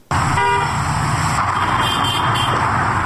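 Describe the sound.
Car traffic in a busy Kabul market street makes a steady, dense roar, with a short horn toot near the start and fainter horn tones later.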